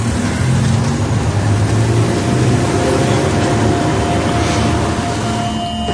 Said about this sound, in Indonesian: Aku langsung menginjak gas perlahan dan menghiraukan kakek itu.